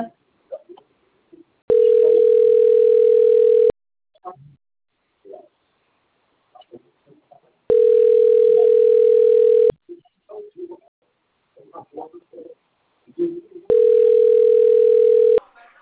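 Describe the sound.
A telephone line tone sounds while a number is being called: three steady, mid-pitched tones of about two seconds each, evenly spaced with roughly four-second gaps. Faint scattered noise fills the pauses between tones.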